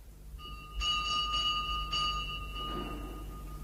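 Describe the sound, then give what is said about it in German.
A pulled door bell ringing at a village parsonage at dawn, a few bright metallic strikes in quick succession that hold a steady ringing tone before fading, with no voices. “atemlos und entgeistert zum Pfarrhof rannte und an der Glocke riss”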